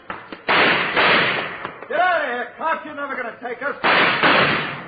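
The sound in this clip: Gunfire in a radio drama shootout between police and cornered gunmen: a heavy volley of booming shots, then a stretch of shouting voices, then another loud burst of firing.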